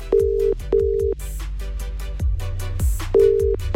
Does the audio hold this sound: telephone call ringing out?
yes